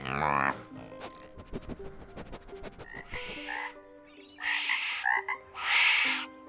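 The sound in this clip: Frogs croaking in a lively mix: rapid clicking pulses and deep tonal croaks overlap, then several loud, raspy bursts of calling follow, with no voices.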